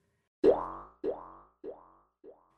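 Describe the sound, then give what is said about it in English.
Cartoon boing effect for bouncing: four springy, ringing twangs in a row, each quieter and shorter than the one before it. “She likes to bounce into the sandpit or bounce down the hall.”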